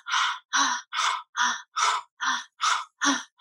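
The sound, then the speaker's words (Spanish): Eight quick, breathy exhalations through an open mouth during a guided relaxation exercise, evenly spaced in a steady rhythm, each a short airy puff of similar loudness. “Inhala, exhala con la boca abierta.”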